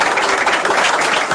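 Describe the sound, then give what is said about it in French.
Audience applause at a live music performance, a loud, dense and continuous clatter of many hands clapping, steady from start to finish. “Mesdames, messieurs, sous vos applaudissements.”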